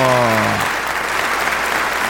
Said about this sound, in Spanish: ¡El público lo aclama! ¡Wow! ¡Fuertes sus aplausos